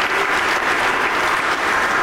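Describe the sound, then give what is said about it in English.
An audience at a church service gives itself a round of applause; dense, even clapping, loud and unbroken from start to finish. “Give yourselves a round of applause for receiving what Jesus Christ did for you on the cross.”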